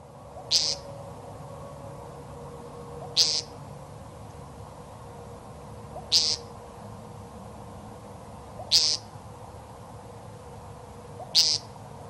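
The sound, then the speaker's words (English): An American woodcock gives its call five times in a row. Each is a short, buzzy, nasal note, spaced a few seconds apart, over a faint steady background hum with no talking. “Let's listen to what these birds sound like so you can lock it in your mind, listeners, as we talk about the American woodcock and where you can find it locally.”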